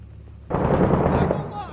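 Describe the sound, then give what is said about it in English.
A sudden, loud burst of gunfire in the Iraq war video game Six Days in Fallujah breaks in after half a second of quiet, rumbling for about a second before tailing off. “He's shooting at us. He sees us.”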